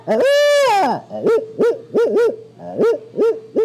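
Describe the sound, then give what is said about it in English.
A person imitating an owl: one long, drawn-out hooting call, then a run of shorter, clipped hoots in an uneven rhythm, loud and clear with no other sounds. “If you want, I can do some animal impressions. Would you like that? Have you ever heard my owl?”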